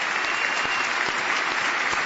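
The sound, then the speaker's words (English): Applause from members of Congress giving a standing ovation in the House chamber, a dense, steady roar of clapping with no break. “A huge standing ovation here in the House chamber as the members of Congress turn toward the First Lady's box and give a standing ovation to Corey Remsburg.”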